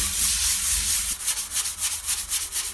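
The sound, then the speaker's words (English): A sponge rubbing soap scum off glass, a steady hiss of scrubbing that turns into many quick, rhythmic back-and-forth strokes in the second half. “So it just says to spray this sponge a few times and then lightly rub the glass.”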